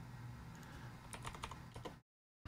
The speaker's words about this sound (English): Let's type in apartheid South Africa minimum wage history.